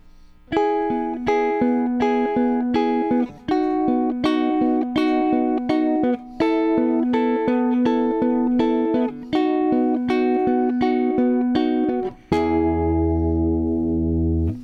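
A guitar plays broken chords from a song with no effect: plucked notes in a steady, even rhythm, grouped in short repeated phrases with brief breaks, ending on one ringing chord.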